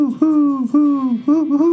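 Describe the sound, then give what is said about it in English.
A human voice imitates the hooting call of a barred owl in a short series of rhythmic, mid-pitched hoots, each sliding slightly downward, loud and without other sounds. “it sounds almost like Who Cooks for You. So that's the barred owl.”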